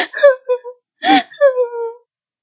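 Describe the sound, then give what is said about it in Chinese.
A woman sobs in two short clusters of wavering, whimpering cries separated by a brief pause, fairly loud and with no other sound behind them. “小红没有说完，人禁不住哭了。”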